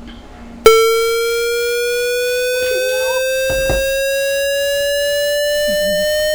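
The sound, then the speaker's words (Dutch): A hollow, buzzy square-wave tone from a tone generator switches on abruptly after a quiet moment and then sustains at steady loudness, its pitch gliding slowly upward. Faint, brief speech occasionally sits beneath it. “Maar ik denk de holle toon. Een blokgolf of een square wave.”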